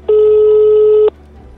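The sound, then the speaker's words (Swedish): A phone call to a prosecutor's office in Malmö rings with a single steady ring tone that lasts about one second and then cuts off, leaving near silence. “Slår ett nummer jag hittar som går till Malmö åklagarkammare.”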